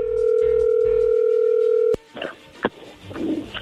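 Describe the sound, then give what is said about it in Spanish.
A telephone call connects: a steady, continuous line tone holds for nearly two seconds, then cuts off with a click into faint line noise and a few soft knocks. “Bueno, a ver, allí entró la llamada, no hagan ruido.”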